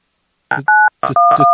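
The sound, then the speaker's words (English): Telephone touch tones from keypad presses during a phone call, two steady dual-pitch beeps with short bursts of other sound before each. “He was just hitting touch tones at me.”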